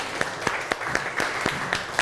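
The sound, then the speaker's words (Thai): Children in a classroom clap for themselves and their classmates: many hands clapping together in a steady, regular beat, with a louder clap at roughly every quarter second over a continuous patter of claps. “ปรบมือให้ตัวเองแล้วปรบมือให้เพื่อนหน่อยครับ”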